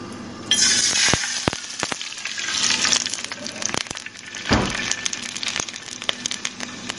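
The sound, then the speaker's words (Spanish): Flour-coated chicken pieces frying in hot oil in a pan over medium heat, a steady hiss of sizzling with crackles and pops, some louder bursts as pieces go in, plus faint clinks of utensils. “Dejamos que comience a calentar el aceite y pasamos los pedazos de pollo de parte en parte por la mezcla de harina y lo introducimos al sartén.”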